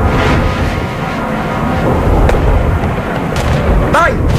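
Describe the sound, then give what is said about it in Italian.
Artillery fire sound effect in a radio drama: a dense, loud, continuous low rumble of battle noise, with a few sharper blasts breaking through. “la senti l'artiglieria?”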